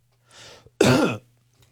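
A man coughs or clears his throat into a microphone: a soft, breathy burst followed by a louder, rougher voiced one, then silence.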